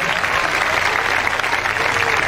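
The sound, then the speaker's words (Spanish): Church audience applauding, a dense, steady wash of many hands clapping at once, sustained at an even, fairly loud level for the whole stretch. “Denle ese aplauso bien grande a Jesucristo.”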